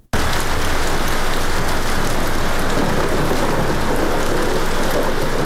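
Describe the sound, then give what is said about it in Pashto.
Heavy rain pours down on Sydney, a city of millions, during days of severe storms with flood warnings. A dense, steady hiss of rainfall holds loud and unbroken throughout, with no voices. “د 500 میلیونو استوګنو په شهر کې دا باران لا هم روان دی”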